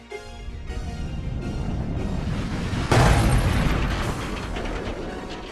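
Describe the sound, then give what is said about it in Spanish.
A V2 rocket explosion: a deep boom bursts out at the end of the missile's supersonic flight, rising out of a low, rumbling build-up and then fading into a long, rolling rumble. “Las V2 no se veían llegar. Sencillamente algo explotaba de pronto cuando terminaba su viaje supersónico.”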